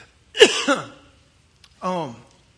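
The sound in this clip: A man clears his throat twice, two short raspy voiced bursts with a pause between, while he is fasting and feels something caught in his throat.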